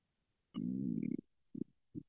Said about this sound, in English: That was a good burp.